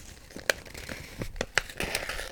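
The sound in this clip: Paper crinkles and crackles as it is folded into an origami crane, with a few sharp creasing snaps spread over a soft rustle.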